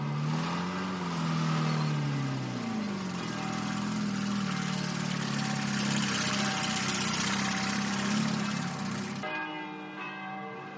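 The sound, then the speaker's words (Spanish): A tank engine starts and drives off in a 1970 war film scene. A loud, sustained droning rumble with wavering pitch is mixed with ringing bells, and the sound drops to a thinner tone near the end. “Kelly le hace una señal a Oswald al otro lado de la calle y este vuelve al tanque. Bien, ponlo en marcha. ¡Vamos allá! Arrancan y se adentran en la calle.”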